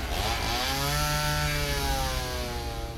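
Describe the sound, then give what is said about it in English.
A chainsaw engine roars steadily for a few seconds, its whining pitch rising and falling slightly, loud and continuous with a harsh buzzing edge. “Many of you called out specific sounds in horror movies, like the chainsaw in Texas Chainsaw Massacre,”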